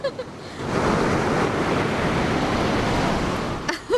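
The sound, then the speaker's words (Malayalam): A big ocean wave crashes onto a beach in Goa. It is a loud, sustained roaring rush that swells quickly, holds for about three seconds, then drops away. “ദേ നീ നോക്കിയേ, ഒരു ഉഗ്രൻ തിര അടിച്ചു കയറി വരുന്നുണ്ട്.”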